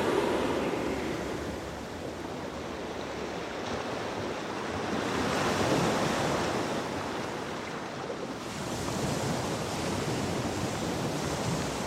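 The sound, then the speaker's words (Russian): Small waves rolling onto a sandy shore where stones show through the sand. A steady, soft rushing surf swells and eases in gentle surges, with no voices. “Берег. Из-под песка видны камни. Небольшие волны накатывают на берег.”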